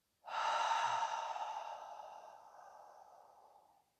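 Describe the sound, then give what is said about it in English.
A single slow, steady breath, soft and airy, that swells quickly and then tapers gradually over about four seconds, with no talk. “Breathe in, regular breath, and out.”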